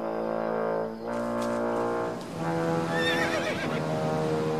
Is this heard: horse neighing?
yes

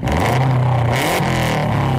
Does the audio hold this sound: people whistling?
no

